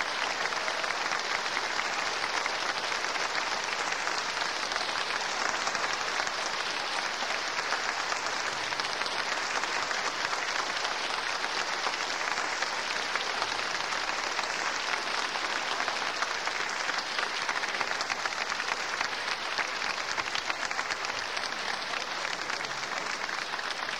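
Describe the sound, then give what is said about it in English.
Sustained concert applause as the audience calls conductor George Szell and cellist Pierre Fournier back for another bow, a dense, steady clapping that holds at an even level throughout without a break. “The audience has called George Sell and Pierre Fournier back once again for another bow.”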